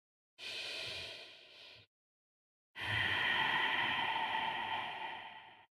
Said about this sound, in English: So whatever it is, you're trying to just listen intently to the sound of your breath. We can do it right now. Let's do one mindful breath together.